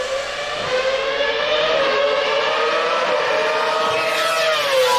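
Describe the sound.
A Formula One race car engine downshifting gives a loud, high-pitched whine with strong harmonics. Its pitch holds fairly steady with slight wavering throughout, and no voices are heard.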